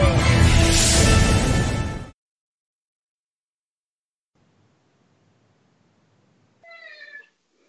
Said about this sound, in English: Is that a cat or a child? That's a cat.